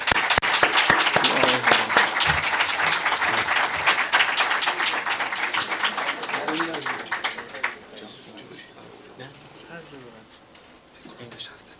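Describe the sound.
Dense audience applause at a Persian-language literary talk as a speaker is invited to the stage. Loud, crackling clapping runs for about eight seconds, then drops away and a voice begins speaking.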